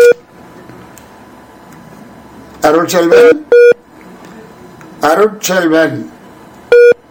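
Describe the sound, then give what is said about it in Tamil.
A call-waiting beep repeats on a phone-in caller's line as three short steady mid-pitched tones about three seconds apart, with talk between them. “உங்களுக்கு வேறு அழைப்பு வருகின்றதா? கூக்கு சொல்லுகின்றது. என்ன இணைப்பு சரியில்லையா உங்களுக்கு?”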